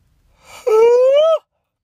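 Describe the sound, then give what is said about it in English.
A single human yawn: a soft breathy intake swells into a voiced, drawn-out tone that climbs gently in pitch for under a second before cutting off abruptly into silence. “sorry, I was yawning”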